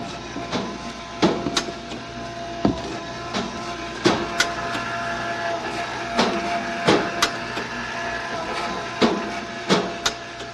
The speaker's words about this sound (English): Right, we sell everything from milk to fruit out of this machine. Anything that can be refrigerated, we can sell through this vendor.